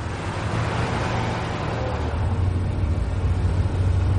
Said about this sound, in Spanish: El coupé acelera y se aleja por el carril derecho.